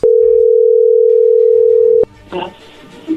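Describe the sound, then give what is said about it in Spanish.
A telephone dial tone sounds while a call is being placed: one steady, loud, unbroken tone lasting about two seconds that cuts off abruptly, followed by a few faint, indistinct sounds. “Vamos a marcarle a Guadalupe.”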